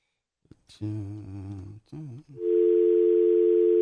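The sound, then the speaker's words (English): Telephone dial tone heard before dialing a hotline number: after a brief stretch of voice, a loud, steady, unbroken tone starts and holds evenly to the end. “I can just dial that straight without the anything else, right?”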